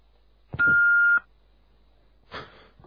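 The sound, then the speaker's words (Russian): An answering machine gives a single steady high-pitched beep lasting about half a second after a brief click. Quiet follows, then a short burst of noise near the end. “Оставьте свое сообщение после сигнала.”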